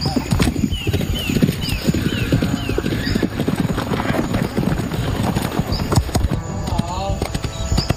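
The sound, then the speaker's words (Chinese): Horse hoofbeats as riders jump poles in equestrian training: many irregular thuds and clip-clops from the horses clearing obstacles, steady and fairly loud, amid busy background noise. “插杆需要骑手熟练掌握起跳时机，才能与马匹共同跨越，这也是他们需要重点攻克的项目。”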